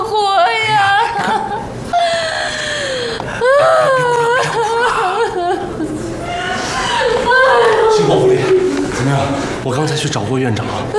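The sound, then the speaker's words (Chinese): A person cries and sobs in a hospital emergency room where an injured patient is being treated. The wailing, sobbing voice is loud and nearly continuous, with a wavering, quivering pitch and words blurred into the crying. “我以后怎么活呀？ 别哭了，别哭了。”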